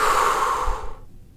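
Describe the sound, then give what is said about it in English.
A deep, slow exhale from a guided breathing exercise: a steady, airy rush that fades away after about a second, heard alone with no talk. “Take a deep inhale. Fill your belly up. Exhale, let it go.”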